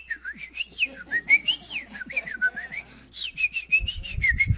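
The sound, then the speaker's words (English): A voice whistles like a little bird, a quick warbling run of many short, high, chirpy notes that swoop up and down. A low rumble enters briefly near the end. “there's just this little bird standing on a rock going,”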